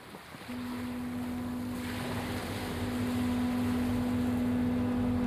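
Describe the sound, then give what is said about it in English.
Steady low engine drone of the barge crossing from Omokoroa to Matakana Island, rising in loudness after a brief start and holding under a constant wash of water and wind. “Kaumatua Enokart Rolleston lives on Matakana Island, so I take the 25-minute barge ride from Omokoroa to go and visit him.”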